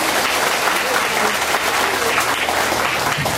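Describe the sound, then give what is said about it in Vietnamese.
Audience applause at a Buddhist retreat, clapping for the Buddhists from Australia: a dense, even wash of many hands that holds steady at full strength throughout, with no pauses. “xin cho Phật tử bên Úc cho một tràng pháo tay.”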